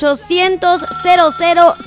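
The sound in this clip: Telephone ringing with an incoming call to a live radio show, a loud electronic ringtone of repeating warbling tonal pulses in a quick, regular pattern.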